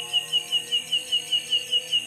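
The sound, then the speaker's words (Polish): Crickets chirping on an overcast night, a faint, steady train of about ten evenly spaced pulsing chirps at a regular rhythm, with no voices. “Zachmurzenie jak najbardziej, ale jakieś ptaszki i świerszczyki się jeszcze przebijają.”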